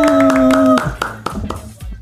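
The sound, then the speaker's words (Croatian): Scattered applause from a few people: sharp, separate hand claps with uneven gaps. A sustained tone sounds under the opening claps and cuts off early, leaving the claps alone. “Jedan veliki pljesak!”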